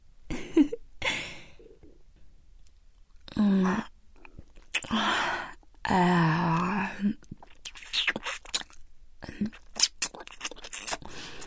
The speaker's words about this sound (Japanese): 次はもうちょっとマニアックなことしちゃおっかな。お鼻の中舐めてあげる。